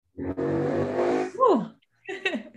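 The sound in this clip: A car drives past on the road outside, its engine noise swelling and then fading over about a second and a half. A short voice cuts in near the end, and another brief noisy burst follows after a pause.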